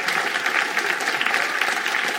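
Audience applause greets actor Robert Llewellyn as he is brought on stage. Loud, thick clapping runs unbroken through the whole clip at a steady level.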